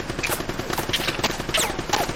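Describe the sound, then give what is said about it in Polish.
Gunfire in bursts, rapid sharp cracks repeating many times through the whole stretch in an unbroken, loud, crackling volley. “On takimi seriami strzela.”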